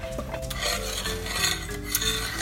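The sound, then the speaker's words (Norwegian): Stirring in a pot of sugar melting on a hot stove gives a steady, continuous rasping scrape that runs evenly without clear breaks. “Til sukkeret har smelta. Mens man rører rundt.”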